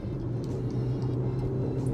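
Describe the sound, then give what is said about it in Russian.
Engine and road noise from a Range Rover Evoque accelerating on the road at speed, a steady low hum with a faint tonal drone and no voices. “Можно нажать Ты на газ. Чувствуешь, как она ускоряется? Да, я чувствую, как она едет.”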